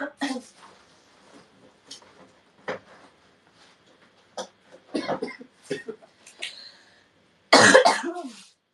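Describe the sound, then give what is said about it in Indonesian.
Harsh, rasping coughs from one person come in a few scattered bursts, building to one loud, forceful cough near the end, with quieter throaty sounds between them. “Maaf guys, batuknya kadang bikin orang takut, soalnya batuknya tuh kayak serem gitu.”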